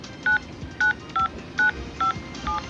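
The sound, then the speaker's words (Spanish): Telephone keypad tones dial a number to retrieve voicemail: six short, steady beeps in an uneven rhythm, each a clear electronic tone separated by brief pauses. “Ingrese el número del cual desea recuperar el mensaje. Exactamente, ingresa el número de la persona que ha dejado el mensaje. Anteponiendo el código de ciudad.”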